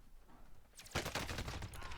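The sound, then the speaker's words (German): Rapid gunfire in a video game firefight: a dense burst of quick shots erupts partway in and rattles on to the end, fairly quiet overall. “Ah, hier ist ein Gegner, zwei Stück. Ich schieß drauf.”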